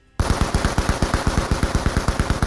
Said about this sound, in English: Bullets raked the pillar and dented and chipped the structure.